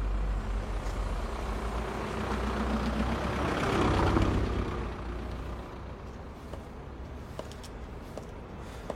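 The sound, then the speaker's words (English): A vehicle drives past in cold weather, its engine rumble and tire noise swelling to a peak near the middle, then easing back to a steady low hum. “She watches a vehicle go by.”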